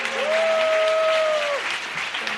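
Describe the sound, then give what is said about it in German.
Audience applause at a church conference greeting a guest: loud, dense clapping throughout, with a held tone that rises, sustains, then drops away midway. “Gebt ihr mal einen mächtigen Applaus.”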